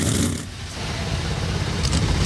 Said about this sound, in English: And with that, 36 NASCAR Cup Series engines come to life.